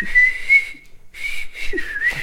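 Whistling from a German band's recording, a high, steady tone held in long notes with a short break near the middle, sounding harsh, overdriven and distorted throughout.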